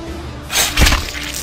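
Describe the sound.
Crockery smashing during a tabletop role-playing game, heard as one brief, loud crash of breaking pieces over a low background hum.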